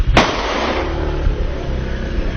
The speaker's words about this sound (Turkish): Tartışma yaşadığı iki kişiye tabancayla ateş açtı. Saldırı anı güvenlik kamerası tarafından kaydedildi.